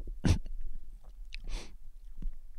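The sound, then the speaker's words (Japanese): Sips of a sweet-smelling drink: two short, soft slurping bursts with faint mouth sounds between them, quiet and alone. “甘くて割といい匂いがしますよ。うん、じゃあちょっと飲みますね。”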